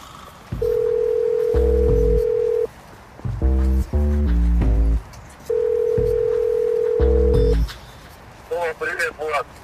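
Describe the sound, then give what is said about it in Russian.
Telephone ringing tone from a call placed on speakerphone, heard as two long, steady, buzzing tones with a pause between them and a few shorter sounds in the gap. “А давай-ка мы его позвоним, потому что лучше него консультацию никто не даст. Я на громкую поставлю, чтобы ты тоже слышал.”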